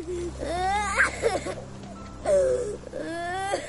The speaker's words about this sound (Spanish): no llores, no llores, cariño, no llores.